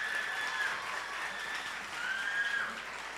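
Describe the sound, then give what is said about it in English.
Studio audience applause for contest show contestants after they shake their opponents' hands: a steady, dense wash of clapping that holds at an even loudness throughout, with no talk over it. “Please put your hands together for them one more time.”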